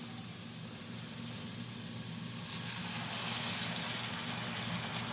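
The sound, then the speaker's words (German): Sizzling crackles from a hot covered pan that a steak is about to go into, a steady, fairly faint hiss that grows somewhat louder about halfway through, with no talk. “Es zischelt so ein bisschen. Und ich würde sagen, hauen wir doch einfach mal. Oh ja, wenn man den Deckel aufmacht, hört man schön. Hauen wir doch mal das schöne Steak rein.”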